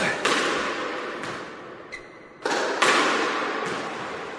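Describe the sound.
Sharp thwacks of a squash ball struck during a squash game: a few loud, irregularly spaced hits with a brief high squeak between them and a low background hiss.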